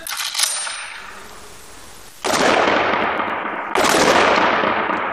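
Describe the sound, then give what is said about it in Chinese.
Two loud, sharp gunshots from live-fire pistol practice by police special forces at a shooting range. Each shot has a sudden onset followed by a long, fading ring, with a short gap between the two shots. “接下来扣动扳机那一瞬间的绝对精准也至关重要。 是否明白？ 明白。 开始射击。”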